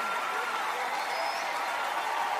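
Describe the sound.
Audience applause at a church worship event honouring a worship singer, a steady, even wash of many hands clapping that holds at a moderate level throughout.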